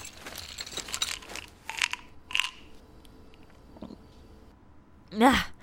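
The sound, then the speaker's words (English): Pills are chewed and crunched in the mouth, with a few sharp, brittle crunches amid softer grinding and a louder crunch near the end. “I've tasted rocks better than those pills.”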